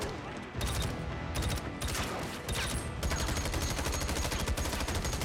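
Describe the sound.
AK rifle gunfire in a film shootout scene, a dense, loud stream of rapid automatic bursts that continues without letup through the whole stretch.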